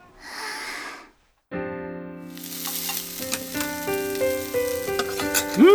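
Okonomiyaki sizzles on a hot griddle with a steady crackling hiss that breaks off briefly near the start, then returns and grows busier, with pops and sputters through to the end.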